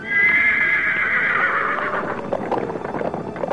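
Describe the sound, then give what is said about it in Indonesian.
A black horse neighs in one long, loud whinny with a bright, shaky tone that fades slightly as it goes, followed by rough breathy noise. No one speaks. “kuda hitam kembali membawa Tio terbang”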